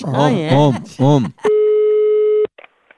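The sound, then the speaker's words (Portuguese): A single steady telephone call tone lasts about a second, after a short stretch of speech, with a brief faint click or blip after it. “Vou ligar pra Nazária.”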